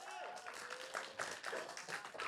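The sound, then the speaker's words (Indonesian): Faint applause from an afternoon audience at an RRI Jakarta and RRI Banten performance event, with dense clapping and voices mingling throughout. “Boleh minta tepuk tangannya dulu?”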